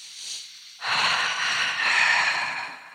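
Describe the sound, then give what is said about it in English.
People take a deep breath together: a long, airy rush of breath swells in suddenly and stays loud and steady to the end, following a quieter hiss. “Let's do a breath.”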